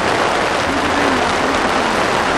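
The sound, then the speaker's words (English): Rain falling as a loud, continuous, even wash of hiss with no distinct drops or pauses, and no voices. “Also, the rain drives the people into the tents. So that's a good feature too. You can keep raining, it's okay.”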